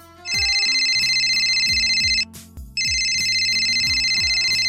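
A phone ringtone sounds as a call is placed, in two long, loud, steady bursts with a short break between them, over a repeating low rhythmic beat.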